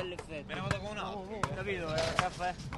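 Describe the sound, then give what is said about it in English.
Basketballs bounce on temporary courts set up in a 16th-century Italian piazza, a few sharp thuds at irregular intervals beneath ongoing voices. “Hundreds of teens and 20-somethings are playing basketball in a 16th-century piazza on a Sunday.”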